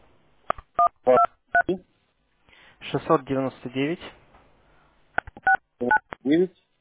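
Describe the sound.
Phone keypad tones beep while a number is entered: a few short tones, then a voice speaks, then another quick run of tones.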